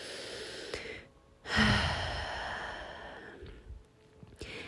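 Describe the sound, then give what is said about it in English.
Deep breathing during a guided relaxation: after a brief quiet gap comes a loud, airy breath that swells and slowly fades, followed by softer breaths, with no talking. “I encourage you to take deep breaths with me.”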